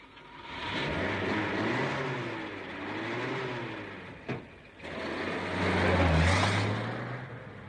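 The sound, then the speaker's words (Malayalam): A car engine runs and revs as the vehicle pulls away. A low, steady hum swells twice, with a single sharp knock between the two swells. “Driver, driver, വണ്ടി എടുക്കൂ.”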